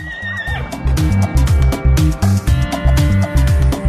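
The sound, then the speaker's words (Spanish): A horse whinnies briefly at the very start. Then a loud, rhythmic musical backing with a steady beat carries on to the end, with no talk. “Soy un animal elegante, muy veloz y poco fiero. Y cuando quiero cansarme, voy a casa del herrero. El caballo.”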